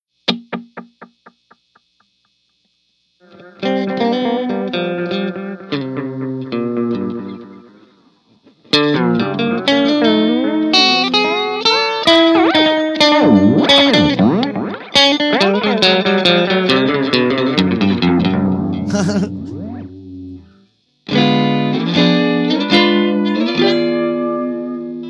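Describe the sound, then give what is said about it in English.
An electric guitar runs through a delay pedal with modulation switched off, so the repeats stay steady and clean without any tape-like warble. Phrases of notes alternate with short pauses, and echoes trail away at the start. “And this is gonna be with modulation off. So you can hear how much cleaner that is. There isn't that almost like tape deck style warble.”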